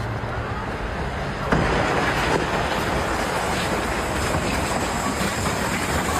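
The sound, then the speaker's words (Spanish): A passenger train strikes a truck at a railway level crossing: a loud, continuous rumble and clatter of the rolling train, with a sudden jump in level early on that holds steady to the end. “Un tren de pasajeros embistió a un camión en el cruce ferroviario. Mira el momento.”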